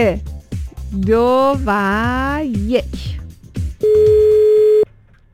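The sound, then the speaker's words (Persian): Telephone ringing tone as a call is placed to a contest winner: one steady, mid-pitched tone about a second long, after a melodic, sung-like voice phrase. “بله دوستان آماده اید؟ بریم زنگ بزنیم.”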